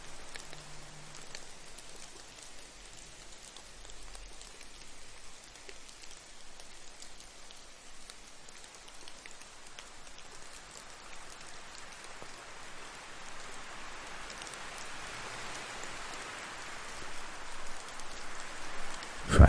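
Steady rain falls in a continuous, hissing patter, with no voices, swelling gradually toward the end.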